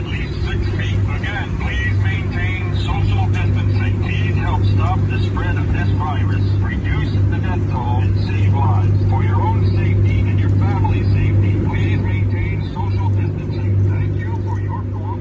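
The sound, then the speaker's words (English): A volunteer COVID-19 task-force drone flying above New York City streets, giving off a constant low, droning hum while a voice speaks over it. “Here's this video from New York City. COVID-19 volunteer drone task force.”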